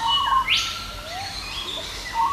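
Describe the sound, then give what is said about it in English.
A peaceful dove calls, mixed with a few other faint bird notes: short whistled phrases and one quick upward sweep over a steady, quiet background. “So first of all, I heard two doves, a peaceful dove,”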